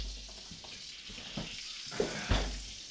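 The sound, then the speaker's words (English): Bacon sizzles on a hot griddle at a Super Bowl party, a faint, steady frying hiss broken by a few sharp clinks and knocks. “Ooh, that's hot. Watch it, it's hot. Oh, bacon's hot when you take it right off the griddle? Hot griddle.”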